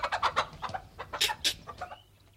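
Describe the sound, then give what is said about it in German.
A hen clucks in a rapid, irregular run of short, fairly loud clucks with no other sounds, the series tapering off and fading at the end. “Was ist das? Verdammte Henne.”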